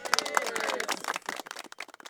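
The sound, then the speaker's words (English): A small group of bird fans at Presque Isle gives a brief round of scattered clapping. Voices rise at the start, and the sharp claps grow more distinct toward the end. “Can I get a round of applause for birds?”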